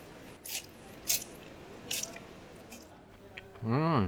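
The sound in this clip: Wet slurping of hot soup: three short, soft sipping bursts spaced apart over a quiet background, followed by a brief voiced murmur at the very end.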